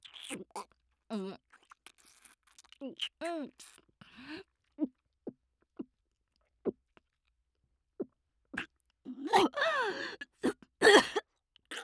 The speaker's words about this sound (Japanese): 作法ではこれをしっかりと食すようにと教わっております。ではいただきますぞ。